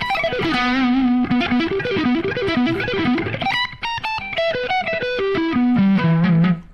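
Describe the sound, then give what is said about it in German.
An electric guitar shreds through a vintage-style, high-gain distortion tone. Loud, fast runs of notes with bends and wavering pitches come first, then quicker, higher note flurries, with no talk. “Eher ein bisschen mehr Gain. Verzerrung. ja, finde echt die Verzerrung. Schade. Vintage Shred. Ja, das ist ein guter Vintage-Shred-Sound tatsächlich.”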